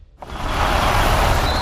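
An electric Jeep Avenger car drives in this sound. After a brief moment of near-silence, a loud, broad rumbling roar starts abruptly and holds steady to the end.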